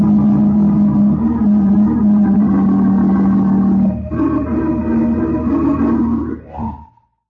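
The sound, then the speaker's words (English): A taxi driving along, with a steady, loud low engine drone rich in harmonics that dips briefly midway, resumes, then winds down and cuts off near the end; no voices. “As you rode in a taxi to your office”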